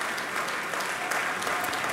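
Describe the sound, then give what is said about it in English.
Audience applause in Bennett Gordon Hall at Ravinia after pianist Olga Kern's afternoon recital: a short, even burst of dense clapping at steady loudness. “And Olga Kern is back on stage. The audience in Bennett Gordon Hall expressing their appreciation for her beautiful recital this afternoon.”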